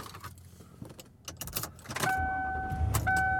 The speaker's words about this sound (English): And I am driving home.